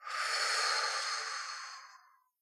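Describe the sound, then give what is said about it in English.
A deep cleansing breath taken during a guided meditation: one long, airy hiss that swells quickly, holds, then fades away over about two seconds, with no other sound. “let's all go ahead and take a really, really nice, deep cleansing breath together. In and out.”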